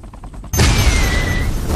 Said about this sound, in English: Let me show you how these other weapons work. Rockets.